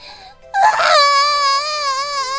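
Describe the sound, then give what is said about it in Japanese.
An infant's cry: a short sputtering start, then one long, loud, high-pitched wail held steadily to the end, with no other voices. “もっと泣くのかよ。”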